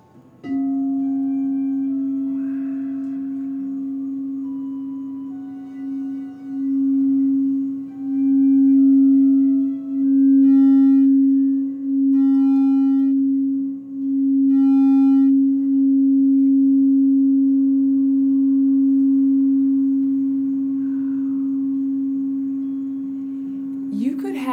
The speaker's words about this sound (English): So we'll do the crystal bowl. Ah, the crystal bowl.